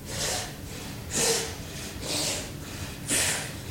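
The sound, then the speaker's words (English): Breathing in through the mouth and out through the nose comes as four soft, airy breaths at an even, unhurried pace, each a gentle rush of air swelling and fading. “You're inhaling through your mouth, you're exhaling through your nose”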